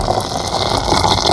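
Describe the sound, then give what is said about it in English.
Water from a boiled kettle rushes and pours in a steady, dense hiss with a gentle bubbling texture, holding an even level throughout the short burst. “Now, you just have to boil a kettle without them noticing.”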